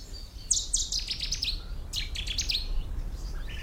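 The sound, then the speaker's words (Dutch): A Cetti's warbler sings in a polder wetland, giving two loud, explosive bursts of sharp, high chirping notes with a short pause between them, then a fainter note at the end over a low background hum. “De Seti-zanger ontglipt me al de hele dag. Maar als je goed luistert, hoor je hem overal.”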